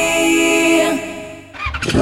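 A motorcycle engine hums in a steady, droning rev that fades away, then breaks into a short, rough burst of revving at the very end.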